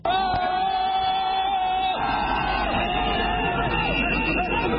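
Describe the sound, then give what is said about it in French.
Thousands of jubilant party supporters in Dakar cheer as they welcome Abdoulaye Wade, a dense, continuous roar of voices, yells and whoops at a steady high level. “Il a été accueilli par des milliers de militants en liesse, comme cet homme qui est venu de la ville de Touba, située à plus de 200 km de Dakar.”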